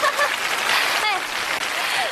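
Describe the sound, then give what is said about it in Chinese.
Audience applause welcomes a guest teacher onto a stage show, a dense patter of many hands clapping that stays fairly loud and even for about two seconds, with faint traces of voices in it. “大掌声欢迎一下郭老师啊！”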